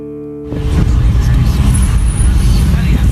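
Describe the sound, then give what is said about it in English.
A car drives through the streets of Laayoune. A faint tonal hum gives way abruptly to loud, steady engine and road rumble that continues to the end. “As we drive through the streets of Laayoon, everywhere are signs of occupation.”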